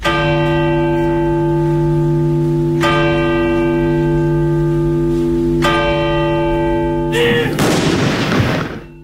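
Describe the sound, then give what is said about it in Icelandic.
Church bells toll at a royal funeral in Oslo with three deep, resonant strikes about three seconds apart, each ringing on. A loud cannon salute booms in a rough burst near the end. “kirkjuklukkur hringdu og skoti var úr fallbyssum.”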